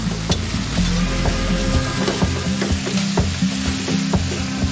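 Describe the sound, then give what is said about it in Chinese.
Food sizzles and frying in a large wok that also heats a kang, with a steady loud hiss broken by repeated scraping strokes from stirring. “这个大锅是可以用来做饭的，也是用来烧炕的。大哥做饭吧。”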